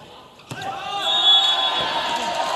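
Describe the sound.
A single sharp smack of a volleyball float serve that scores a point during a match, followed by swelling background noise, with a commentator talking.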